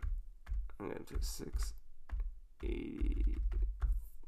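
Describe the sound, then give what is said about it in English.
Soft clicking keystrokes on a computer keyboard as someone types a number into a website, sounding under a person talking. “Let's see, I'm going to type it in here. I don't know if you guys are going to like this as much with me typing.”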